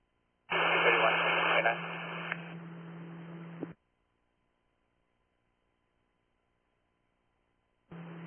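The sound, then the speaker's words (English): Extreme radio static on a dispatch channel: a hissing burst lasting about three seconds with a low steady hum, then silence before another burst begins. “Last unit with static.”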